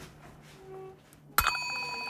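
A small broken bell, rung like an ice cream van bell, is struck once with a spoon. It gives a sharp metallic clang that rings on in bright, sustained tones after faint background noise.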